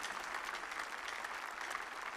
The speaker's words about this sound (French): Shall we put our hands together and clap for the Lord?